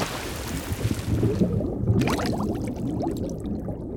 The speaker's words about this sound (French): Ça, c'est ce que vous entendrez ce week-end en Corse à l'occasion d'une balade en mer à la découverte des fonds sous-marins de Balagne.